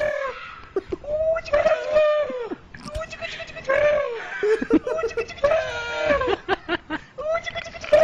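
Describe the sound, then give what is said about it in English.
A ticklish camel groans and bellows as it is tickled on the belly: a long series of loud, wavering, throaty groans, repeated many times in uneven bursts. “I never knew that camels were ticklish.”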